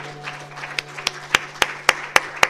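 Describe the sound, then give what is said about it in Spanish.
Claps from an audience at a church service ring out in a steady, evenly spaced rhythm, sharp and bright, over a constant low hum, with no voices. “Cuánto un aplauso al Señor en esta mañana.”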